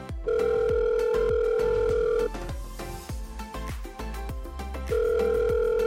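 Ringback tone of an outgoing phone call: a steady tone holds for about two seconds, breaks off, then returns, while a rhythmic music track with sharp percussive hits plays throughout.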